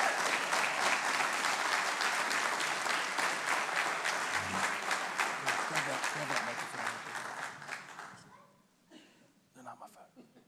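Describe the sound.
Audience applause fills a church as a couple who have served 45 years in ministry are welcomed to the stage: dense, steady clapping for about eight seconds that then dies away into a few faint sounds.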